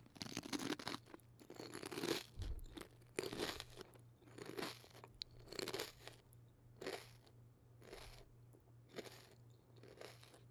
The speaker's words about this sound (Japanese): 今度はもっとよく聞こえるように食べるね。この距離ならよく聞こえるよね。それじゃあいただきます。